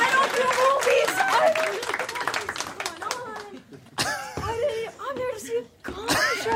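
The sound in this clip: Audience applause fills the room with dense, steady clapping, mixed with crowd noise and voices speaking over it, dipping briefly before swelling again.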